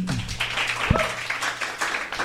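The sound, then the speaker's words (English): An audience gives a round of applause for a panel group after a conversation, a steady patter of many hands clapping, with a brief voice near the start. “Can you give them a round of applause?”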